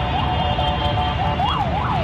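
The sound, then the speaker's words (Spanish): Alarm sirens sound during a night of bombardment: a continuous wailing tone rises and falls in repeated cycles over a steady low rumble. “Una noche de bombardeos cruzados donde las alarmas no han dejado de sonar.”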